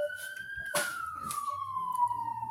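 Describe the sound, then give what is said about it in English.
A siren wails faintly in the background behind a live show, holding one tone and then sliding slowly down in pitch, with faint talk underneath. “I got the background. I got sirens in my background.”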